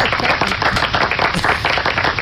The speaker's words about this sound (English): okay, we get claps. There we go. We get claps when they happen.